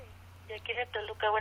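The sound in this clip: A telephone call is answered, with a few short buzzy electronic line tones stepping in over a steady low hum.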